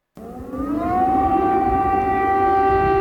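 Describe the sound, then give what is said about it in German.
An air-raid siren wails in wartime Kyiv, a loud tone that climbs in pitch over the first second and then holds steady and sustained, heard alone. “Der Himmel ist grau an diesem Tag in Kiew und das Geräusch das des Kriegs. Luftalarm am Tag”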